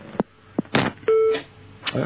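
A short, steady telephone-line beep sounds after a radio call-in caller is cut off. It is set among a few sharp clicks and brief bursts of noise on the line.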